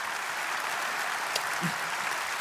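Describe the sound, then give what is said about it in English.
An audience applauds to welcome guests to the stage, with dense, sustained clapping that stays even in loudness. “I'm going to welcome them to the stage right now. Could you give them a hand? Give them a hand.”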